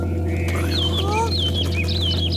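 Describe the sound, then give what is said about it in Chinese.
A flock of birds chirps and whistles as it flies away, with bright calls that rise and fall over a steady low hum. “不好了，百鸟都飞走了。”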